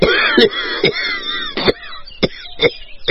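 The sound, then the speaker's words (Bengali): An elderly man coughs after choking while swallowing a mouthful of rice during a meal. Several sharp, harsh bursts come at uneven intervals, with strained, rasping sounds between them. “হঠাৎ একটা ঢোক গিলতে গিয়ে দাদু কাশতে শুরু করলেন”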